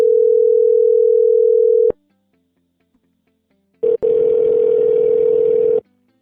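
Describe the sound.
Telephone line tones during dialing: a steady, loud dial tone cuts off with a click, then silence, then a brief burst and another steady tone that holds for about two seconds before stopping.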